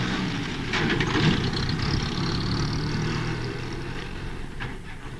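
A small car's engine pulls away, a continuous mid-to-low rumble that stays even and then eases slightly softer toward the end.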